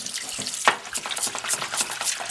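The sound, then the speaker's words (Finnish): Light rinse of a fish under cold running water to wash surface blood away: a steady, bright splashing hiss broken by irregular spatters, with one sharper splash near the middle and no talk. “Ja ihan tämmönen kevyt huuhtelu, että ei se ihminen, muuta kuin veret vaan mitä tässä on pinnalla vähän”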